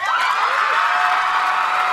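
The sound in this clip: An audience cheers and screams as BTS is introduced on Saturday Night Live in 2019: a dense, shrill, continuous roar of crowd voices holding steady throughout.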